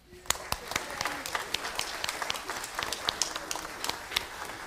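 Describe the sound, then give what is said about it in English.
A church audience claps to welcome a newly baptized member during a worship service: many sharp, uneven handclaps that keep up steadily throughout. “Did you clap? Good.”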